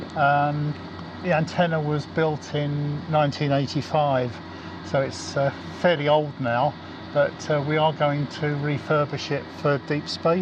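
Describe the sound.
Steady mechanical drone of the lubrication system running on the drive motors of a large 1985 satellite dish antenna, heard on the roof of its base building; an even, unbroken hum sits beneath continuous talk throughout.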